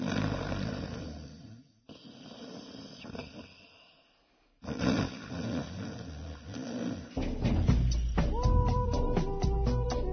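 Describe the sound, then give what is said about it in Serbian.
A snoring teddy bear toy making low, rasping mechanical snores in a repeating pattern, with two brief silent breaks. “I tata je meni tražio mog lišanog meda hrkalica, zato da uključi medu hrkalicu, da on i da tata i on hrču zajedno.”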